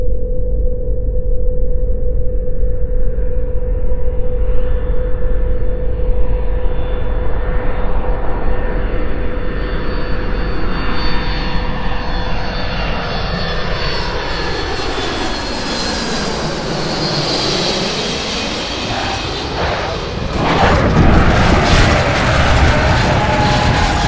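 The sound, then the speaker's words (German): A spacecraft coming in to land, its engines giving a steady, heavy roar layered with whining tones that sweep downward and then climb again, before a sudden loud burst near the end. “Landung am Zielort wird vorbereitet. Eintritt in die Umlaufbahn.”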